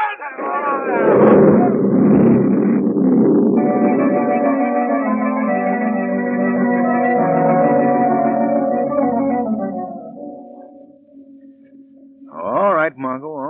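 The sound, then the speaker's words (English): A radio drama effect of an oil derrick collapsing and a gas tank exploding: a long, loud rumbling roar with ringing tones layered through it. It lasts about ten seconds and fades, then a brief voice follows. “There goes the derrick. Run before the gas tank explodes.”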